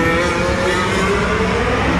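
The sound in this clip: Racing cars' engines roar as they run over a kerb: a loud, continuous, high-revving engine drone that holds steady throughout.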